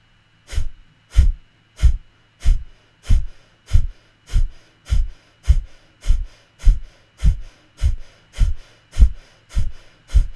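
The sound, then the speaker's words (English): Breath of fire breathing: forceful exhales pushed out through the nostrils by drawing in the low belly. Many sharp, evenly spaced nasal bursts come in a fast, steady rhythm, roughly one every two-thirds of a second, with near silence between them. “We're going to draw in the low belly and breathe out through our nostrils. And then the inhalation is just a really easy recovery.”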